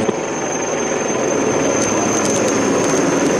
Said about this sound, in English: Live visuals of the choppers, the Mi-17 of the Indian Air Force, of the Indian Army, paying floral tributes to